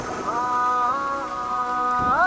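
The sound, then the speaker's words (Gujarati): Heavy rain pours as a steady hiss through the whole stretch. A sustained tone above it slides in pitch a few times. “પણ અહીંયા વરસાદ બહુ જ છે એટલે હું નહીં આવી શકું.”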